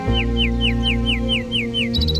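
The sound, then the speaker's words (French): A common nightingale sings a fast, even run of repeated whistled notes, each sliding down in pitch. A few brief higher chirps follow at the end, all over a loud, steady low hum. “Donc ça, c'est un rossignol. Il vient de chanter.”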